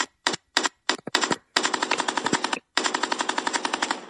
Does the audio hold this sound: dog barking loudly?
no

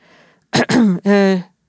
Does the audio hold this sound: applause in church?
no

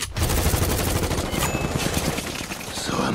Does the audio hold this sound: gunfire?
yes

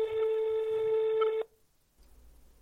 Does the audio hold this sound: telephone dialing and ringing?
yes

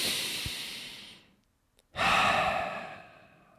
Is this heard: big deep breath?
yes

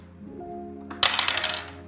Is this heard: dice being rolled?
yes

